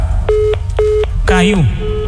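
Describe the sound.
Tones of a dropped phone call sound as two short, steady electronic beeps of equal length, followed by a brief voice-like sound.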